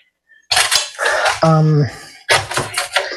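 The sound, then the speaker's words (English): A spoon scrapes and stirs an egg into cake batter in a bowl. Several loud, gritty scraping strokes come in uneven bursts, with a brief ringing tone partway through. “Okay, stirring in egg number 2. Okay, gotta make sure I get in all the batter here.”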